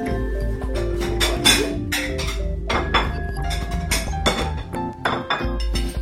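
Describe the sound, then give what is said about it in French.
Dishes clink as a plate is picked up, with many sharp ringing chinks of china and cutlery striking each other in an irregular run, some louder than others, continuing through the whole stretch. “Moi, je vais attraper une assiette.”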